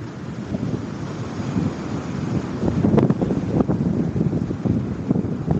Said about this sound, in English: I was in North Germany on the Ostfriesland island of Northern Neu. I was sitting in a beach chair and watching the tide